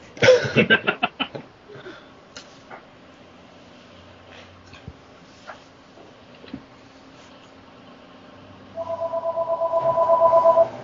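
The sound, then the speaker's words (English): A landline home telephone rings with an electronic warble: a quick cluster of loud tone bursts at the start, then a long, steady two-tone trilling ring near the end, with faint background noise between. “is that a home phone? Like, a landline? Yes, it is a landline.”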